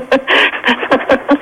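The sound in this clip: A voice imitating a dog panting during a comedy prank call: about six quick, breathy huffs in an uneven rhythm, heard alone.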